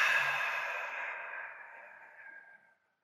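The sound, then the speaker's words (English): A slow, deep exhale during a breathing exercise: a single soft, breathy hiss of air that gradually fades over nearly three seconds before ending in silence. “breathe in for 4. Hold it. Fully receive that gift of oxygen. Exhale for 8.”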